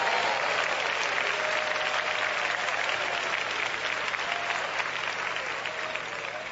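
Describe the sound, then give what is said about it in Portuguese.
A church audience clapping their hands: dense, loud, continuous applause that holds steady throughout and eases slightly toward the end. “Podem dar glória a Deus, podem bater palmas para Jesus.”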